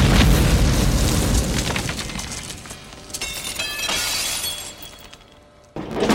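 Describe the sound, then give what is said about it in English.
A flashbang grenade goes off on a floor covered with broken glass: loud, booming bursts mixed with sharp shattering and crackling debris. The noise fades into a brief lull near the end, then surges back. “slides a flashbang grenade along the floor.”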